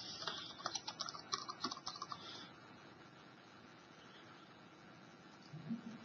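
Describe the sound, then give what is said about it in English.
Computer keyboard typing as a work estimate is entered into a task item: a quick, uneven run of keystrokes for about two seconds, then near silence, with a couple of faint taps near the end. “I type in what work I estimate for this.”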